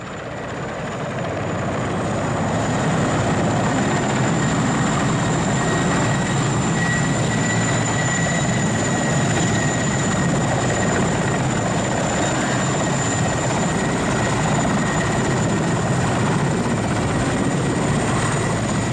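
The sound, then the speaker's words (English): Helicopter flying in to a town with supplies: a loud, steady rotor and engine drone with a thin high whine. It fades in over the first seconds, then holds constant throughout with no voices. “Every day, one or two helicopters drop by at the town.”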